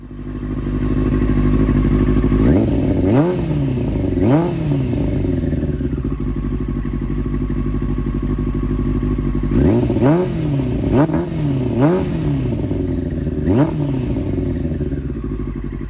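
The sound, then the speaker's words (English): Motorcycle engine revving with its exhaust uncorked and the dB killer removed. A steady low idle is broken by two clusters of sharp revs, each jumping up in pitch and falling back, loud and with no talk. “now I got to hear it without the DB killer. So then we uncorked it. And then of course brought it around to the front of the house so everybody can hear it.”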